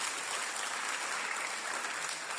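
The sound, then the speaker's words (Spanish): Dense applause for two volunteers called up from an audience for a balloon-inflating game, steady and full throughout with no pauses or talk over it. “aplauso para los dos valientes.”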